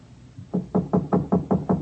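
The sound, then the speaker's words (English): Knocking on the door of a house on a back road outside town, a quick, even run of solid, low-pitched raps that starts after a brief quiet moment and keeps a steady rhythm. “but nobody answered my knock. I waited a while and tried the door.”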